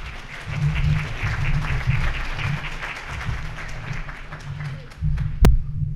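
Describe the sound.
An audience applauds to welcome a guest speaker. Steady clapping runs over a low rumbling hum, briefly dips, then one sharp, heavy thump sounds near the end.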